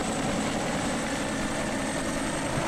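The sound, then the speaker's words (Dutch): A helicopter flying low overhead and coming close gives a steady, dense roar of rotor and engine noise that holds level throughout, with no talking. “Nou, de helikopter gaat een beetje laag over. Hij komt erg dichtbij nu.”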